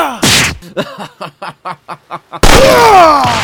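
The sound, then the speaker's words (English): A single loud, sharp gunshot opens the scene, followed by a run of short rhythmic pulses and then another loud, sustained burst of noise. “He shot me in the leg.”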